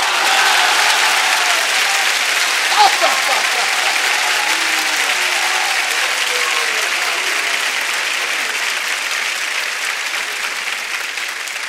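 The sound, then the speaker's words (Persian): An audience claps along to a devotional song praising Imam Hasan. Steady, dense clapping holds at an even level throughout, with faint voices underneath. “حالا شما این دستاتو میزنی ببینم منم میتونم یا نه”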